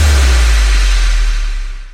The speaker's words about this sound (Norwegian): Kan vi kjøre snart? Ja, nå kjører vi.